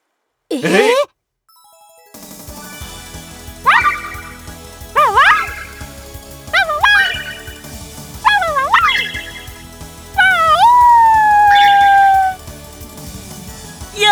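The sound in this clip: A puppy barks while performing a trick, giving one early squeaky yip and then five high, bending yelps in a chain, the last drawn out longest.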